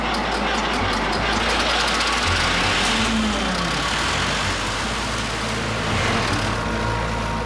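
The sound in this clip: A vehicle engine idles with a steady, low, rumbling drone that holds even and unbroken for the whole stretch, with no clear revving or change in pitch.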